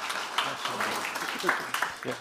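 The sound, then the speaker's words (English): A church audience applauds a man named Martin. Scattered, fairly soft clapping runs under talking voices throughout. “How many people know Martin? Give him a round of applause.”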